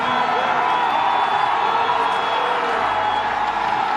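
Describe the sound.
Crowd noise from Italian spectators at a Winter Olympics finish line, as a racer heads to the line: a loud, dense, continuous roar of cheering with no break, and a voice faintly audible within it.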